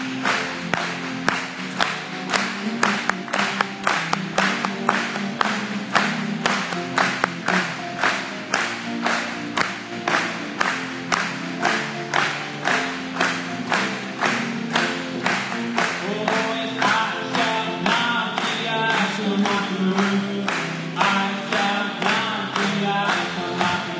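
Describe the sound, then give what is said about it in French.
Steady rhythmic hand clapping keeps a regular beat through a song at a worship gathering, each clap sharp and even over continuous music with sustained tones underneath. “Acclamons.”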